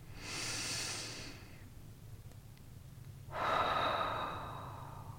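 Two long, audible breaths taken slowly during a guided group gathering, soft airy rushes separated by a quiet pause of about two seconds, with no talk over them.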